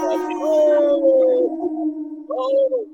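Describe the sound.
A lone wolf howl sound effect: a long, sustained, tonal howl that falls slightly at its end, then a shorter second howl after a brief pause.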